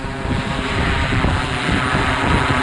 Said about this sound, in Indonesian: Drones terbang di langit tahun ini.